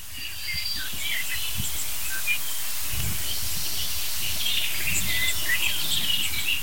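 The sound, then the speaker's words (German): Blackbirds scolding with many sharp, high alarm chirps scattered irregularly over a steady, faint hiss of background insects or rustling. “Stattdessen höre ich schimpfende Amseln.”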